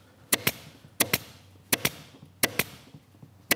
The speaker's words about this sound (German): Beim Schießen vom Gurt sollte man die Tackerklammern diagonal zueinander setzen, um einfach mehr Tackerklammern auf die Breite des Gurts verteilen zu können.